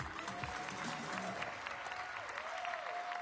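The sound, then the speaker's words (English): Steady applause from a church audience welcoming a guest speaker to the stage in Concord, a dense, even clatter of many hands that holds at a constant level for the whole stretch. “right now, if you're in the house, come on, at every location, I need you to put your hands together and let's welcome Dr. David Docusen.”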